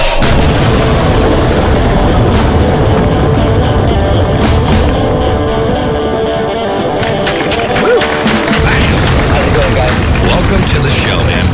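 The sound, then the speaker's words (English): A rocket blast-off effect with thrusters roars loudly and continuously, a dense, rumbling wall of noise broken by crackling, booming bursts throughout. “Thrusters are hot. Raylene, are you ready to rock? All systems go, Johnny. Let's blast off with C.J. Engel!”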